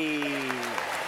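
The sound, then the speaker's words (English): Faint applause greets a guest joining a live stream. It sits under a held tonal sound that drops in pitch partway through the short burst. “Look at that applause. Yeah. That's fancy, man.”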